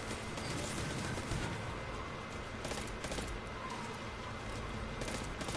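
Gunfire in a video game shootout: dense, continuous volleys of shots that keep the sound loud and steady throughout, with no clear gaps between bursts.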